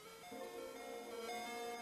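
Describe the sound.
Faint tinkling ice cream truck jingle, a simple electronic melody of sustained, bell-like notes playing quietly on its own.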